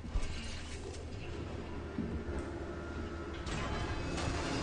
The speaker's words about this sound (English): Oh, of course the elevator breaks. Of course. That's normal. Happens all the time.